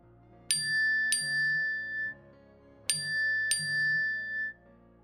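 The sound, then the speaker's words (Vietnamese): A text message notification tone on a phone: a bright two-note chime sounds twice, with the pair repeating after a short pause. Each chime is clear and ringing and fades quickly. “Âm báo tin nhắn vang lên, Trâm mỉm cười.”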